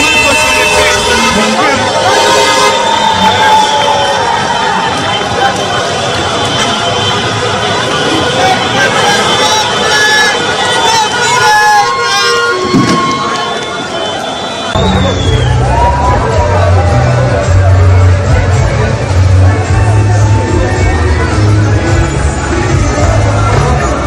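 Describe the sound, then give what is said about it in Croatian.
Street celebration in a capital city after a football match, with a dense crowd din, fans' singing voices and a sustained low horn-like tone in the second half, loud and continuous throughout. “Duge kolone vozila, sirene, vatrometa, ali i navijačke pjesme odjekivale su ulicama glavnog grada. Donosimo dio atmosfere.”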